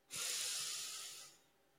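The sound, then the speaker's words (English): A single deep breath is drawn in during a guided relaxation exercise. The airy hiss begins abruptly, holds steady for about a second and then tapers off quietly, with no talk over it. “take a really deep breath,”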